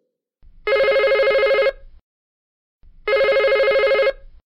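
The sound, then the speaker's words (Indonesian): A telephone bell rings twice for a children's classroom story game, each ring a bright, warbling electronic trill lasting about a second, separated by a clear silent gap. “Nah, jika kalian mendengar dering telepon dua kali,”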